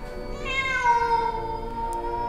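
Wild cats perched on tree branches give a drawn-out, mournful yowl, one long wavering meow that dips slightly in pitch before fading, heard alone over low background noise.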